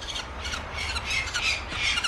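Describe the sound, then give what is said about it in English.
Falcon parents shriek around their nest, giving harsh, high squawking cries that run together in a loud, steady stream with repeated swells. “The shrieking parents fly angry loops around the nest.”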